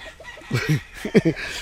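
Fighting roosters and chicks kept by a cockfighting breeder cluck in a few short, quick bursts, moderately loud against a quiet background.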